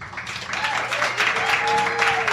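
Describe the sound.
Audience applause welcoming three university psychology scientists onto a stage, clapping that swells over the first half-second and then stays steady, with a voice over it.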